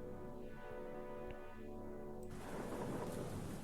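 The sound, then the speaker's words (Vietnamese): Rain falls during a sudden storm, a faint, steady hiss that abruptly turns into a denser, louder downpour about two-thirds of the way through, with no voices. “Những giọt mưa bắt đầu rơi. Đầu tiên tiếng mưa rơi nhẹ nhẹ, sau đó là ầm ầm ào ào như thác đổ.”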